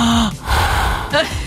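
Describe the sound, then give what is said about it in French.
A voice imitates someone sleeping with a wide-open mouth, making a loud breathy rasp of mouth breathing between short voiced, gasp-like sounds. “Si j'ai la bouche grande ouverte et que j'ai plutôt tendance à dormir en respirant comme ceci.”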